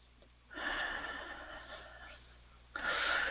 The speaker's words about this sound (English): And one more deep breath.